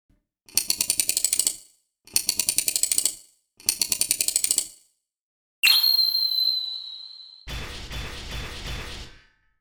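The key of an old-fashioned wind-up robot is wound with ratcheting clicks in three rapid bursts. A sharp whistling tone follows, then a longer stretch of clattering mechanical whirring.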